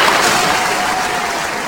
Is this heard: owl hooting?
no